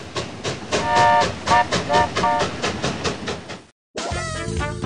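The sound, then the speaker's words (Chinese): A train arriving at a station clatters in a fast, regular rhythm with bright ringing tones over the pulses. It is loud throughout, then cuts out for a brief silence before a different tonal sound begins. “本次列车即将到达终点站——娱乐情报站”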